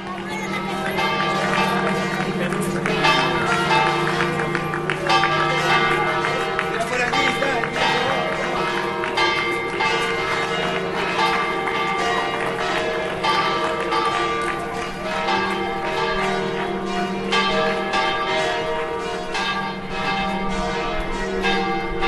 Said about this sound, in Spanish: grabaciones de campo hechas en Canarias, como esta que nos trae los sonidos de las campanas de la Catedral de Las Palmas.